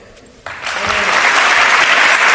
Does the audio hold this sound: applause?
yes